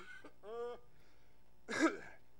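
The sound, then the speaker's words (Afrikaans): Coughing to bring up phlegm while recovering from an illness. A short throaty, voiced sound is followed after a pause by one harsh, rough cough. “ek hoes nog die laaste slyme uit van my siek wees”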